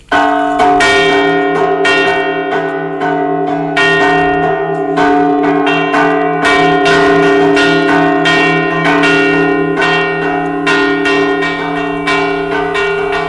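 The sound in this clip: Church bells ring the traditional signal for the lost, sounded shortly before the town gates closed to guide people stranded outside. Many loud, overlapping strikes ring without pause, with a sustained humming resonance beneath them.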